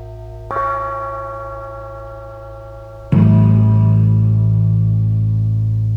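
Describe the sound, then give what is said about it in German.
A silver bell is struck twice, the second strike louder. Each strike leaves a bright, sustained metallic tone with many steady overtones that fades slowly and is still ringing at the end. “Silberne Glocke.”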